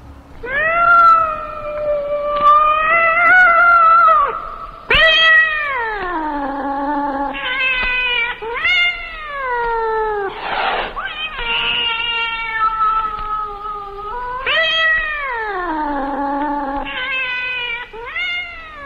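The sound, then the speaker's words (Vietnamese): A cat meows and caterwauls in a forest at night, giving many loud, drawn-out yowls that waver and sag in pitch, some ending in falling moans, one after another with short gaps. “nghe trong khu rừng vắng lặng vọng ra từng tràng tiếng mèo kêu. Tiếng kêu bi thương như than khóc, lại như sợ hãi run rẩy trước cái chết, mỗi lúc một thảm thiết”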